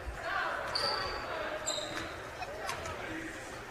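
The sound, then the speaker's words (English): A basketball dribbled a few times before a free throw at a basketball game, sharp hollow bounces over constant crowd murmur, with a couple of brief sneaker squeaks. “Couple of dribbles.”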